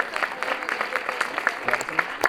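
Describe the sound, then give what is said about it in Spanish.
An audience applauds band members at a live concert. Steady, dense clapping continues under voices for the whole moment. “Un aplauso, por favor. El aplauso también.”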